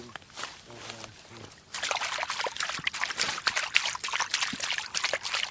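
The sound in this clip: Squelching, sloshing footsteps on soft, waterlogged forest ground beside a beaver dam, a burst of wet, splashy crunches that starts abruptly and continues loudly and irregularly to the end.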